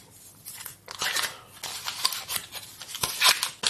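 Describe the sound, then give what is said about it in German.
Paper wrapping crinkles and rustles as a block of butter is unwrapped for a baking dough, irregular soft bursts of crackling and tearing-like rubbing that rise and fall. “Ich packe gerade meine Butter aus.”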